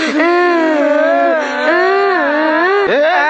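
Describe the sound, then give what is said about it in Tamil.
Children crying in one loud, continuous wail whose pitch wavers up and down, then dips sharply and recovers just before the end. “ஏன்டா இப்ப அழுகுறீங்க?”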